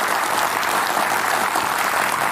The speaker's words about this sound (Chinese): 我们掌声送给他们， 谢谢。